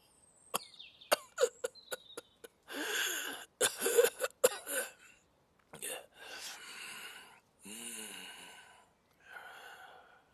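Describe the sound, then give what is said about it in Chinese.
Loud coughing performed by a narrator's voice: a quick string of many sharp, hacking bursts, then longer rasping, breathy coughs and throat sounds separated by short pauses. “大声咳嗽起来，脸上搭挂着的肉抖得厉害。咳完愣了一会儿”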